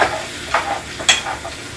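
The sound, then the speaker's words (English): Food sizzles in a pan at home while being stirred, a steady hiss broken by a few brief scraping strokes of the utensil. “Listen to that, perfect. Woo, I'm loving it. And give that a nice little mix. Let all those flavors come together perfectly.”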